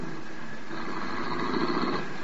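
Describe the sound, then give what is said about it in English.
A car pulls up to a stage entrance outside a club as a radio drama sound effect: a steady, broad engine rumble at an even level, swelling slightly partway through, with no voices. “A car drove up to the stage entrance just as Peggy McConnell emerged from the club.”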